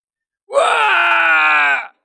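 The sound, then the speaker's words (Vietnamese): An anguished cry stands in for slave miners screaming inside a mine, used as an audiobook sound effect. A single loud, sustained wailing voice rises in pitch at the start, then holds steady for over a second before cutting off. “Tiếng kêu thảm thiết lại truyền tới”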